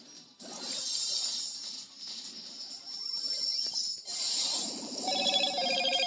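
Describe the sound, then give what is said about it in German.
A phone's message notification tone during a video game session: short, bright ringing chimes that rise out of a steady, noisy wash of game sound toward the end. “Sorry, das war eine Nachricht.”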